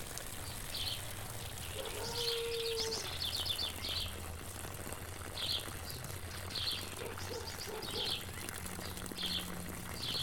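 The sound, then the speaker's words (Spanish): Thrush song, faint, in short high chirping phrases repeated at intervals over a steady low hum and background noise. “Ahora estoy escuchando un zorzal.”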